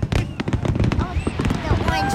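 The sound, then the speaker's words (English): Fireworks exploding in the sky at a public display with a crowd watching. Many sharp pops and crackles burst in rapid, uneven succession, with a few thin whistling tones and voices in the mix. “What do you think of the fireworks? Isn't it cute?”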